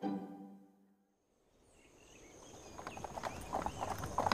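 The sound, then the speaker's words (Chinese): Horse hooves clip-clop as a horse-drawn carriage arrives at the entrance of a hunting enclosure. A brief tone fades to near silence, then faint, irregular hoof clops grow steadily louder. “院书驾着马车停在围场入口处”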